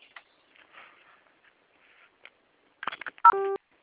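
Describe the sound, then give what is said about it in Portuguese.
A single telephone keypad tone from pressing zero in reply to an automated call: one short, steady dual-pitch beep that stands out loudly after a stretch of near-silence broken only by faint, brief noises. “Digite zero agora mesmo”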